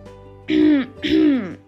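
A father clears his throat in two harsh, voiced bursts, each a rough rising-then-falling rasp, separated by a short pause.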